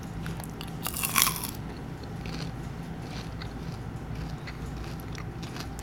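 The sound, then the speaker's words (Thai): Colour-coated, fruit-flavoured popcorn is bitten with one sharp crunch near the start, followed by faint, steady chewing. “มีป๊อปคอนที่เคลือบสีต่างๆ ไว้เยอะมาก มีสีม่วง สีชมพู สีเหลือง สีส้ม สีเขียว แล้วมันมาจากฟรุตตี้แสดงว่ามันต้องเป็นผลไม้ ฉันจะเดาว่าแต่ละอันเป็นอะไร ชิมสีส้มก่อน”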